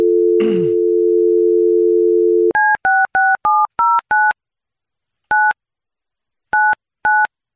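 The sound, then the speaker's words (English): Telephone dial tone, a steady hum, then touch-tone dialing: nine short beeps of varying pitch, six in quick succession followed by three spaced farther apart. “Let me dial her up.”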